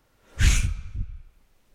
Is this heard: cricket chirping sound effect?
no